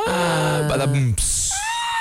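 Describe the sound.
A woman screams. A drawn-out vocal cry slides downward in pitch, then cuts to a sudden, piercing high-pitched shriek that trails off into a thin tone.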